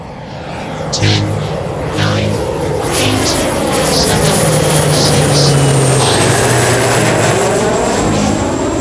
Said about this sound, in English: This is your captain speaking. We've been cleared for takeoff. Flight crew, please prepare for departure.